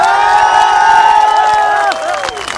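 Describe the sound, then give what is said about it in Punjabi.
A crowd at a Punjabi stage event cheers, whoops and applauds. The noise is loud, dense and sustained, and eases slightly near the end. “ਇੱਕ ਵਾਰੀ ਉਹਦੇ ਜਿਗਰੇ ਲਈ ਤਾੜੀਆਂ ਮਾਰ ਦਿਓ”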